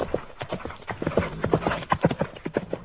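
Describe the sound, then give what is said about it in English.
Horse hooves clip-clopping as a rider rides off fast from a stable at night, with many quick, uneven hoofbeats in a brisk rhythm that carry on throughout. “he went directly to the stable, roused his ride, and rode off in a flash”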